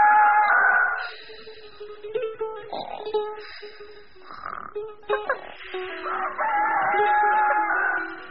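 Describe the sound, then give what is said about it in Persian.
A rooster crows in the early morning, giving several drawn-out, strained harmonic calls that rise and break between short pauses, heard alone at moderate loudness. “صبح زود خروس شروع به خوندن کرد.”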